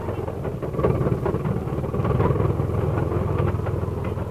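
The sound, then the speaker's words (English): A car engine strains in low gear while stuck in a snow drift, giving a loud, continuous rumbling drone that swells slightly after the first second and holds steady throughout. “It's like we're heading into another bad drift. Yeah, okay. I'll shift into low and hope we can buck it. I'd hate to have to get out and dig again.”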